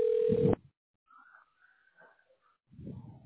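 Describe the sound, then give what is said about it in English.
While a call to a tax specialist is placed, a single short, loud telephone dialing tone sounds at the start, followed by faint, scattered low noises. “We're dialing the tax specialist right now.”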